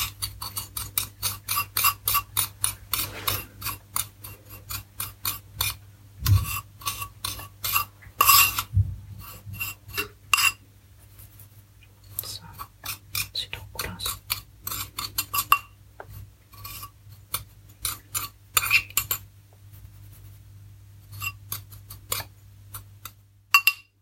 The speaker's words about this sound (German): Das war ein bisschen klumpig in dem Beutel. Das mache ich hier gerade mal klein. Drücke ich einfach mit dem Löffel an die Schüsselwand.